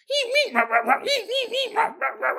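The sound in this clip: A man's voice imitates a golden retriever: a rapid, rhythmic run of high, yelping bark sounds, each short and tonal, repeated many times without pause.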